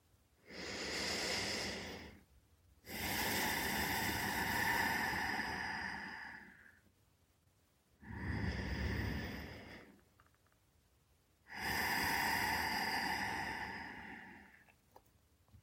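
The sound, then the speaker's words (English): Slow, deep meditation breathing: four long, airy breath sounds in two slow cycles, separated by short pauses. Soft and hissing, with no voices. “Let's take a few breaths.”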